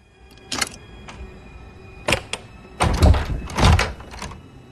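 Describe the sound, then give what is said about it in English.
A hairpin worked in a bedroom door lock gives several bursts of metallic clicking, rattling and clunking, separated by short pauses and growing louder toward the end. “trying intently to pick the lock with a hairpin”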